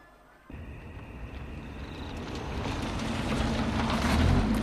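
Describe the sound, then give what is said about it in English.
A car driven up toward a huge mansion at night, its broad engine and tyre rumble starting abruptly and then growing steadily louder over several seconds, with no voices. “Nighttime, a car is driven up towards a huge mansion.”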